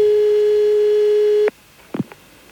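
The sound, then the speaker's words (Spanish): A steady telephone line tone holds at one unchanging pitch for about a second and a half, then cuts off abruptly, followed by a few brief faint clicks on a call being placed abroad. “La llamada de Fernando Hierro a Nesta.”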